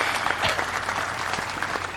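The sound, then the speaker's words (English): Audience clapping at a Hall of Fame induction speech: a dense, steady burst of applause lasting about two seconds, with no voices above it. “Clap here.”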